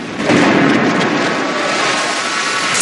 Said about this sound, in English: But there's a flash of white light and he explodes, leaving behind a charred remnant of his former self.